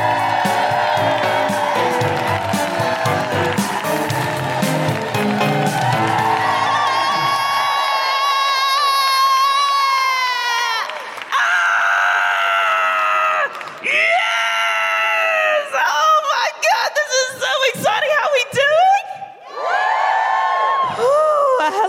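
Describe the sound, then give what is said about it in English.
A live comedy audience cheers, screams and whoops loudly for a comedian coming on stage. A steady roar carries piercing high whoops and yells that rise and fall in waves throughout. “Put your hands together and make incredible woohooing noises for the wonderful Sophie Chuka!”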